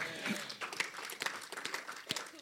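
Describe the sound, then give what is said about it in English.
Clapping from a church audience during a sermon, faint and irregular, with scattered sharp claps of uneven strength rather than a tight rhythm. “Clap for the Lord Jesus.”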